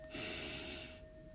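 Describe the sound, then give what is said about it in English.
A single deep breath in during a guided breathing practice: a loud, airy rush of inhaled air lasting about a second, alone and without talk, then quiet. “we begin by taking three deep breaths together. So let's breathe in”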